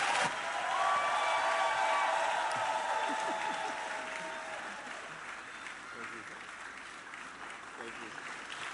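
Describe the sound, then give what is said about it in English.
Applause from a standing church audience welcoming a bishop to the front, loud and full at first, then thinning and fading gradually over several seconds. “Please welcome with me Bishop Francis Waleoke.”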